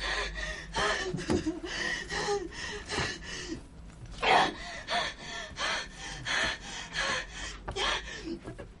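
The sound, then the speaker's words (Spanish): A crying woman gasps for breath during an anxiety attack, letting out many ragged, rapid gasps and snorting breaths in an uneven rhythm, some sharper and louder than others. “Llora y sufre un ataque de ansiedad. Se lleva las manos al cuello con dificultad para respirar.”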